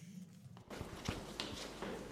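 Footsteps walking into a pyramid. After a brief quiet start, a few distinct footfalls land at uneven intervals over a soft background hiss.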